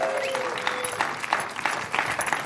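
A short burst of audience applause welcomes a volunteer back onto the stage at a live show. The clapping is moderately loud, with uneven peaks of sharper claps across the brief stretch.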